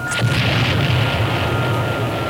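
A bomb explosion sound effect from a 1983 radio contest promo: a loud, sustained, deep rumbling roar with a steady hiss, holding level throughout with no voices.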